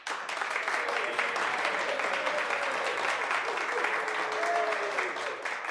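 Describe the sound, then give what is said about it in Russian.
Audience applause in a theater hall, dense and steady clapping from many hands that holds at an even, fairly loud level throughout. “Буратино очень удивился, когда публика зааплодировала.”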